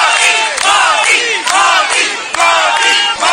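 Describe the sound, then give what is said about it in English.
Crowd of Indian diaspora welcoming Prime Minister Modi at his hotel in Jakarta: loud, rhythmic massed shouting and chanting, with bursts of voices repeating several times in a steady pulse. “Prime Minister Modi received an enthusiastic welcome from the Indian diaspora upon his arrival at the hotel in Jakarta.”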